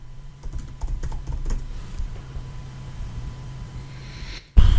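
Someone types a quick Google search on a computer keyboard, with a rapid run of light key taps that fades into a steady low hum before a sudden louder noise at the very end.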